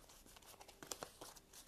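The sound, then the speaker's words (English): Cards from an encounter discard pile being shuffled together, heard as faint, crisp papery riffling with many quick crackling bursts in a rapid, uneven flurry. “So before I do that, I'll just shuffle the encounter discard pile in.”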